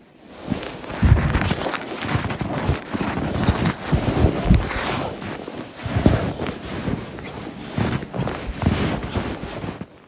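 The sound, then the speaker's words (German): Footsteps crunch through very cold, powder-dry snow, many crisp squeaking steps in an uneven walking rhythm over a breezy, rustling background. “Durch die Kälte macht der Schnee übrigens ein ganz anderes Geräusch beim Gehen. Ich finde, man hört am Sound schon, dass dieser Schnee anders ist. Ich habe euch mal ein Beispiel mitgebracht, wie das klingt, wenn man durch diese Art von Schnee läuft.”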